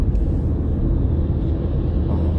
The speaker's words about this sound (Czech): Děláme radost nákladňáku a necháme ho předjet.